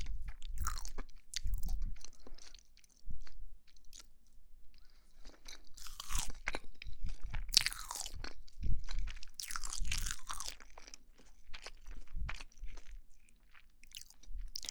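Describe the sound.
Someone eats small crunchy cakes close up, making many sharp crunching bites and chewing sounds in an irregular rhythm, with brief quiet gaps between bursts.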